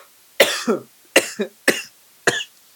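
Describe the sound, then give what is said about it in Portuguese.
Four harsh coughs after choking on water. Each is a sharp burst followed by a shorter wheezy catch, evenly spaced and heard alone without talking. “Respira fundo. Engasguei com a água.”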